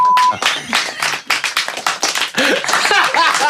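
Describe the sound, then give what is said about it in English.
An audience claps reluctantly after an introduction, giving sparse, uneven handclaps of moderate loudness that thin out and then pick up again briefly, with a voice heard faintly alongside. “that is the most reluctant clap I've ever heard for an introduction.”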